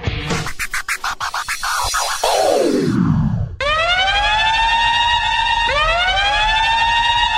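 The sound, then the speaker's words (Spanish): A loud emergency siren wails in repeated rising and falling sweeps, coming in after a burst of rough, scratchy noise. “Suena la sirena en Al Fin Solos”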